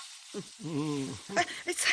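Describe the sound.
Vegetables stir-fry in a pan with a steady sizzling hiss running throughout, while a voice talks over the frying.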